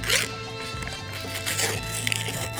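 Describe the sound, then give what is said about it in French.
A gold aluminium foil wrapper is peeled away in continuous crinkling and rustling with a few sharper crackles, over a steady low hum. “c'est parce que le petit papier d'aluminium, il est pas super facile à décoller.”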